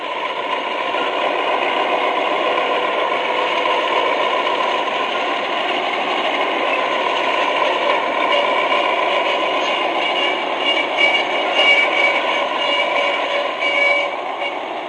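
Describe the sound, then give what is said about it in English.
Submarine diesel engines picked up over a sonobuoy as the sub runs on diesels and moves away from the buoy, giving a steady, even mechanical drone with a faint rapid vibration and no voices. “The sub is now on diesels and proceeding away from the buoy.”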